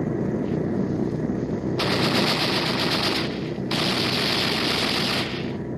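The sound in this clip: Two long bursts of aircraft machine-gun fire, fired at searchlights during a bombing run, rattle loudly and rapidly over a continuous heavy engine drone, separated by a short pause.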